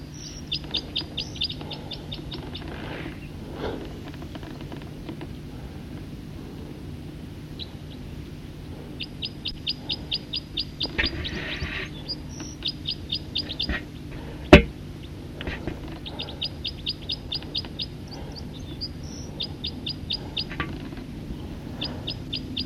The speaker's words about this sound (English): Recording song of a bird.